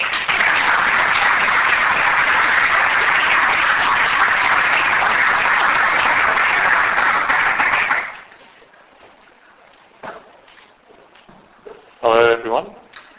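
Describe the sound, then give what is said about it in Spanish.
An audience gives warm applause to welcome a speaker to an afternoon talk in Valencia. The loud, steady clapping runs for about eight seconds, then stops abruptly into near quiet with a few faint knocks before a voice begins speaking. “Así que quiero dar un cálido y aplauso de bienvenida a Sona para esta tarde.”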